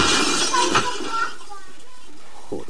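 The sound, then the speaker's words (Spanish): Something breaks with a shattering, clattering crash, likely glass, at the start, while people talk over and after it. “¿Se ha roto otro? Otro se ha roto”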